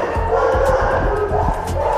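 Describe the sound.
Dogs bark in an animal shelter kennel block of some thirty pens. Many loud, overlapping barks and yips form a continuous din.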